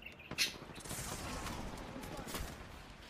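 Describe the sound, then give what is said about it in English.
Gunfire in the video game Apex Legends, with many rapid shots crackling over a constant background of noise and a sharp, louder burst near the start. “why are they shooting at me?”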